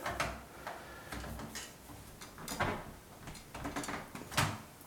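Someone pulls outward on a door lock set firmly into a door, giving a series of faint rattles, clicks and dull knocks throughout.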